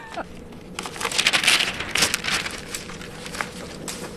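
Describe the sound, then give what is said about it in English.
Paper farewell cards from former choirs being flipped through: soft crinkling and rustling of paper in a few uneven bursts, fairly quiet. “Flipping through farewell cards written by former choirs.”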